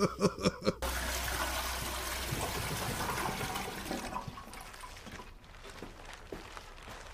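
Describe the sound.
A toilet flushes in a bathroom scene from the film The Gentlemen: a few quick clicks, then a loud rush of water that slowly fades to a gurgling trickle.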